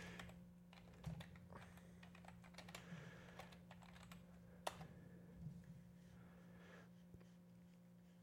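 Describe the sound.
Faint typing on a computer keyboard, with soft, irregular keystrokes scattered over a low steady hum and a few slightly louder clicks standing out.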